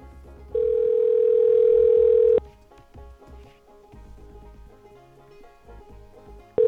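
A steady telephone dial tone plays while a phone number is being called. It holds for about two seconds, cuts off into quieter background sounds, and returns briefly at the very end.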